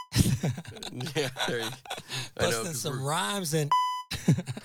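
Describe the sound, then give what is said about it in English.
A single short, high censor beep cuts into lively talk to mask swearing. People keep talking around it. “I know, cause like as if we're censored here. Oh, I'm gonna beep them out.”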